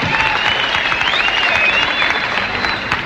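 Audience applause welcomes a guest star at the Grand Ole Opry: a dense, steady wash of many hands clapping together, loud and unbroken for about three seconds with no clear pauses.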